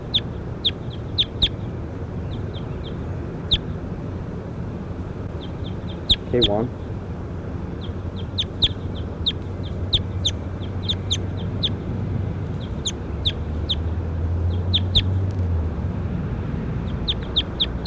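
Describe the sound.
Bird calls resembling chickens clucking: many short, high chirps repeat in irregular clusters throughout, over a steady low background noise.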